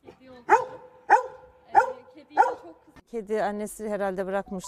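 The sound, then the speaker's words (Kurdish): A golden retriever with a broad chest barks at anyone nearing the kitten it guards: four loud, sharp barks in an even rhythm. Voices follow the barks. “بەسەر هەر کەسێکدا دەوەڕێت کە بیەوێت لە بێچووە پشیلەکە نزیک ببێتەوە”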